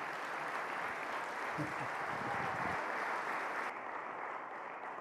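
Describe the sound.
A Nebraska audience applauds to welcome a pastor, with steady clapping and some talk underneath before the applause cuts off abruptly near the end.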